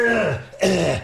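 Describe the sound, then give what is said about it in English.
A person clears their throat twice in quick succession: two harsh, rasping, guttural bursts whose pitch falls, loud and without speech. “trying to clear my throat and that's, terrible”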